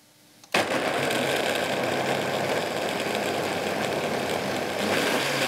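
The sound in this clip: Kitchen mixer started on low speed with hot food inside and the lid on: a sudden onset of steady whirring motor hum that holds an even level throughout, with no voices.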